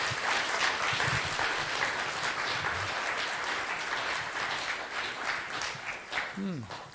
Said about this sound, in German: Give the Lord a hand. Gib dem Herrn einen Applaus.